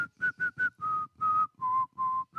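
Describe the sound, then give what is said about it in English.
A person whistles the melody of a pop song: a clear, pure tune of about eight notes, the first few short and quick, then longer held tones that step gradually lower in pitch, with no talking. “You may recognize them from the whistle song. It goes something like...”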